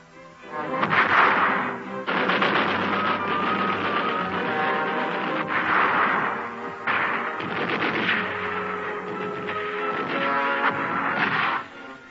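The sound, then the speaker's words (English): Machine gun and mortar fire as paratroopers go into action at a besieged garrison: dense, sharp cracks and heavy bangs rattle almost without pause for the whole stretch, with a few brief dips. “The picked contingent hits the ground and goes into action immediately with machine gun and mortar fire.”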